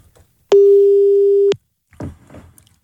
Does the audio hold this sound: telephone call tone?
yes